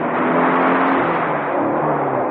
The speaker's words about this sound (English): Kettridge appeared from nowhere, roaring his motorbike down the cliff path